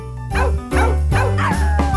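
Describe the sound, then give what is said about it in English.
A guide dog plays with a squeaky egg-shaped toy with a long tail, giving a rapid series of loud, high, whining squeaks and dog-like yips that follow close together with almost no pause. “What I'll be getting my guide dog, Ella, for Christmas is a wubba. It's a egg-shaped toy with a long tail, and as you can hear, she absolutely loves it.”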